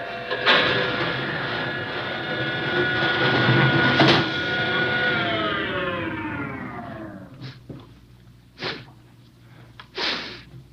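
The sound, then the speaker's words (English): Outer airlock of a spaceship opening with a loud rushing hiss and a whining tone that slides steadily down in pitch over about seven seconds and fades, followed by a few short, sharp bursts. “Lustig, open the outer airlock.”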